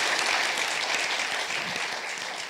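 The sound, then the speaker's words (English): Audience applause for a birding panel discussion at an academy event, a steady, even patter of many hands that eases slightly in loudness toward the end. “Could you give our panel a hand?”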